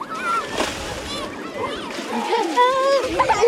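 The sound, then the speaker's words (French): Around twenty young schoolchildren splash on a water-covered slab in Bordeaux city centre, with irregular wet splatters and sloshing. High children's voices and shrieks rise over the water throughout. “cette vingtaine d'élèves de CE1 qui sont venus profiter de cette dalle recouverte d'eau bien connue dans le centre-ville de Bordeaux. Il y a quelqu'un qui mouille les autres.”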